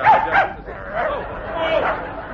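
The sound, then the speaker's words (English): A small, playful dog yaps and whimpers while clinging to a man's leg: a few quick, high, excited yips followed by softer whines, loud and close. “You're right. It is the dog basket. No. Oh, come along, Pinky. Pinky dear, Pinky. Let go of the gentleman's leg, Pinky. Oh, dear, you see, he's a playful little fellow.”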